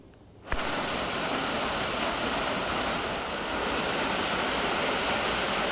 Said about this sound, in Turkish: Yağmur aniden bastırdı. Dakikalar içinde sokaklar göle döndü.